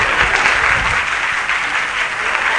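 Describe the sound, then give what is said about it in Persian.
Audience applause at a talk in a session on success: dense, continuous clapping that holds at a steady, fairly loud level throughout, with no pauses and no voices. “برای انیشتین دست میزنیم”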